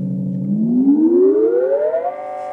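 Synthesizer tone gliding upward: a buzzy, harmonic-rich note holds low at first, then slides smoothly and steadily higher over about two seconds before settling on a sustained, higher pitch.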